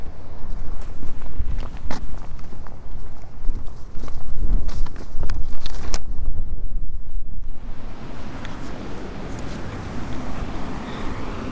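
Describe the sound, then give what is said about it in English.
Footsteps go down concrete steps to a beach as the tide comes in, a steady tread of scuffing steps heard through heavy wind noise and the constant wash of surf. “And down on the beach by Bedroof and Steps, I've climbed 120 concrete steps down.”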